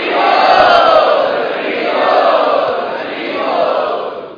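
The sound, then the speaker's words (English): An audience chants loudly in unison to welcome guests at an evening gathering, a dense wash of crowd voices that swells three times and stays strong throughout. “Thanks for joining us this evening. Let us welcome all of them by loudly chanting.”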